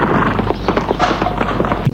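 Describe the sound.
Hoofbeats of a horse galloping away, a rapid and steady run of many thudding strikes that stays fairly loud throughout, with no voices.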